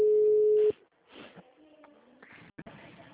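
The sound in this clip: A steady, low telephone tone from an automatic dialer holds for under a second and then cuts off, leaving quieter, low background sounds.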